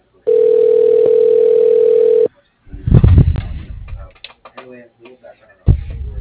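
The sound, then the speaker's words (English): A steady, continuous telephone dial tone hums at a low pitch for about two seconds, then cuts off and gives way to indistinct talk and clatter. “Dialing.”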